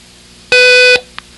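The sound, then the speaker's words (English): A single long Morse code beep for the letter T, a steady, buzzy electronic tone held for about half a second before cutting off into silence. “The sound alike for the letter T is tall. It sounds like this in Morse code.”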